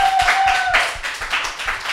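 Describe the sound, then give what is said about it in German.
Brief clapping from an audience at a live stage event, honoring a bartender. Fairly loud, uneven hand claps fade slightly toward the end. “lass uns doch nochmal einen kleinen Applaus für Jutta hinten an der Bar hinterlassen.”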